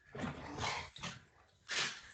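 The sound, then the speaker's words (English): Dogs indoors make short, fairly faint bursts of vocal noise: a few rough, breathy yelps and grumbles separated by brief pauses, with no talking over them. “Excuse my dogs for being annoying. Right, I was hearing that in the background.”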